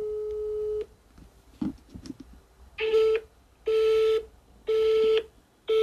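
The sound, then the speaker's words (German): A telephone busy signal on a call to a restaurant: a longer steady tone and a few clicks, then three evenly spaced short beeps at the same mid pitch. “Das heißt doch belegt, oder?”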